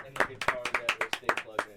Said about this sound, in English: Everybody clap for Goop. Thank you, Goop.